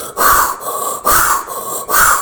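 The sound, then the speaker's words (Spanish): Loud, rushing breaths from a forceful breathing exercise with deep belly inhales and strong exhales. About five breaths come in quick, steady succession, each a harsh whoosh separated by very brief pauses, with no talk. “Y después vas a expulsar el aire con fuerza.”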